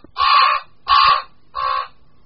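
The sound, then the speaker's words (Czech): Three harsh, drawn-out croaking calls of a common raven, evenly spaced and loud with nothing else around them, the last one slightly weaker than the first two. “Tento hlas krkavce velkého, jeden z mnoha jeho projevů, docela dobře odpovídá jeho pověsti.”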